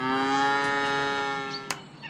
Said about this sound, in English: Let's get those cows out of the barn.